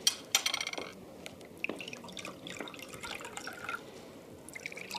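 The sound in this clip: A soft drink is poured from a bottle into glasses: faint trickling and dripping of liquid, with a few sharp taps near the start, continuing quietly throughout.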